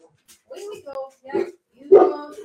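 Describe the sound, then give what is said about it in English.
Dogs bark and yip in a few short, mid-pitched bursts with pauses between them, growing louder toward the end. “Oh, hang on, everybody. We're going to have a barking choir.”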